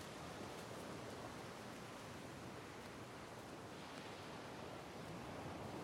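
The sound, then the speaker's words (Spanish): Large ocean waves churn by dunes and cliffs, heard as a faint, unbroken, broad rushing roar with no distinct single crash standing out. “Al momento sigue caminando por las dunas junto a los acantilados. En el mar hay un gran oleaje.”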